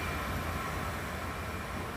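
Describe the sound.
Low, even rumble of a train on a single-line railway slowing to about 10 mph as it approaches a station, faint and steady with no voices.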